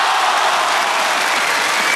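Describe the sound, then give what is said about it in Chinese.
Audience applause at a live event just before the New Year, a dense, steady wash of many hands clapping that stays loud and even throughout, with no talk over it. “谢谢观众的这个掌声，太热情了，我太开心了。如果这个掌声再热烈一点点，会更 好。”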